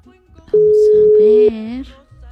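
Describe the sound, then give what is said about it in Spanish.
A telephone call rings out as one steady, loud ring tone lasting about a second, with a voice talking over its end. “Y por eso es que vamos a hacer la llamada. A ver, veamos si nos contestan, ¿va?”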